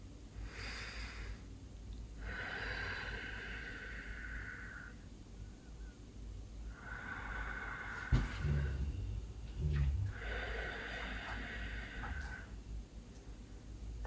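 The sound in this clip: Slow, deep breaths taken at the start of a guided mind-body session: a few long, drawn-out airy breaths with pauses between them, soft and faint, with no talk over them.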